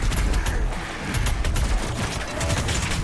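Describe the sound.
Rapid machine-gun fire in a Doom video game: a dense, continuous stream of loud shots with crackling bursts that runs through the whole clip, with no talking.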